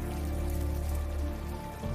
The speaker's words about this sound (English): He moves past a table of lit candles and goes to the window to find rain streaming down the glass. Now, buckets set out on his balcony collect the falling rain.